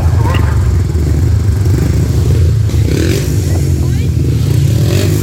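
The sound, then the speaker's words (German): Motorcycles race at a sand track race in Hechthausen, their engines roaring loudly and continuously with revving surges and clattering, scraping grit throughout. “Ich weiß, in Hechthausen gab es so ein Sandbahnrennen. Aber das seid ihr nicht. Ja, wir.”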